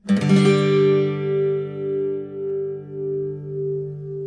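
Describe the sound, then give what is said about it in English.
A G chord strummed once on acoustic guitar, voiced with an added note: little finger on the 3rd fret of the 3rd string and third finger on the 3rd fret of the 2nd string. It rings out alone and slowly fades with gentle beating. “You can play G another way, by adding another note.”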